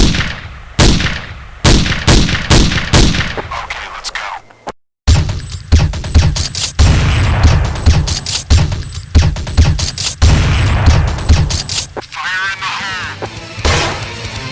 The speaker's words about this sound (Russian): Достал свой пистолет и пристрелил всех в голову.